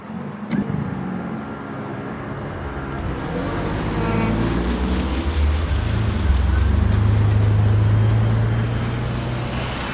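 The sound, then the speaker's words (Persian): Steady engine and road rumble from a Hyundai Sonata car as it is boarded and driven off, with a brief thud near the start and the low hum growing gradually louder and fuller. “سوار سونوتا میشه.”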